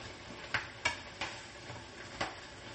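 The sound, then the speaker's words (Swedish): A mixture is stirred thoroughly, producing a few faint, sharp clicks of a utensil against a bowl at uneven intervals over a quiet background. “Hur som helst, så blandar vi ordentligt här.”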